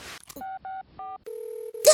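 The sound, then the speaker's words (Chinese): Mobile phone dialing tones beep out as three short keypad tones, then a longer steady tone with a brief gap. Rustling noise comes before the tones and another burst of noise at the very end. “你拿着手机干嘛？是要打电话给校长啊？”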